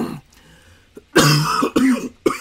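A person coughing and clearing the throat while choking up, with harsh, loud bursts in quick succession after a quieter start.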